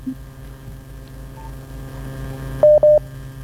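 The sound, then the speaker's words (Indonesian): Telephone keypad tones as a dropped call is redialled: two short, bright beeps close together near the end, over a steady low hum with no talking. “Oh, ternyata sambungan teleponnya tadi terputus ya. Kita kembali mencoba terhubung.”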